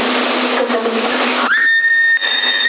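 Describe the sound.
A whistle tone sent over CB radio in Sassari cuts in partway through a band of hissy, crackling static, then holds as a steady, loud high tone to the end.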